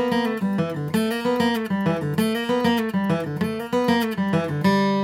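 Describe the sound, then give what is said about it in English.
A guitar plays a G chord into a slide lick and repeats the phrase, ending on G. Bright sustained notes with gliding slides rise and fall in a looping melodic pattern, with no voices. “I'm gonna play a G chord, go into that slide lick,”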